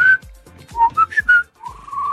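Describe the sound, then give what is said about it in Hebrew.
A person whistles several clear, loud, short notes at shifting pitches, showing different whistling styles, then holds a longer tone that rises slightly, with no voices. “יש לי כמה שיטות של שריקה, נגיד יש לי... ויש לי... ויש לי...”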